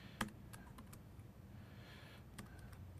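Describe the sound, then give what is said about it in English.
Faint keyboard typing while code is being written on a computer, a few scattered clicks and taps at an uneven pace with one sharper keystroke near the start. “whoops, typing is terrible today.”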